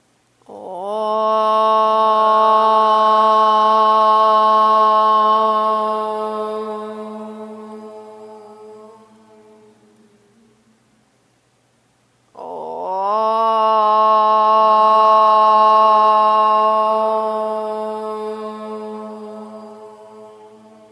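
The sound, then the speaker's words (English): Group chanting of om during a guided gratitude meditation: two long, sustained, low resonant hums, each swelling in and slowly fading, with a brief breath gap between them and no talking. “from that vibration, we'll om three times, inhaling.”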